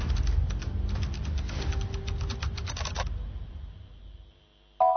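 A computer mouse clicks over and over while files are being uploaded, a rapid run of many sharp, dry clicks for about three seconds before the sound drops to near silence.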